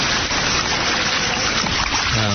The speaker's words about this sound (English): Okay, we're out of the water now. And back into another waterfall.